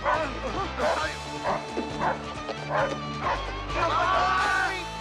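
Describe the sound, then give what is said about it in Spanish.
A small dog barks and yips sharply in repeated bursts as it attacks, with loud, excited human voices talking and shouting over the barking throughout. “¡Perrito, perrito! ¡Atácalos! ¡Corre! ¡A ellos!”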